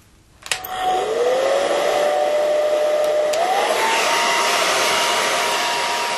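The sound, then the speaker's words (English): A hair dryer blow-drying hair clicks on and spins up into a loud, steady whooshing whine, its tone stepping up slightly partway through before holding constant. “I'm going to blow dry my hair.”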